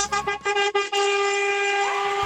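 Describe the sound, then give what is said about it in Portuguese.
Car horns honking in a street honking celebration: a few broken blasts open, then steady, overlapping horn tones hold loudly and continuously for about two seconds. “Agora é hora de buzinar, né? Agora é hora!”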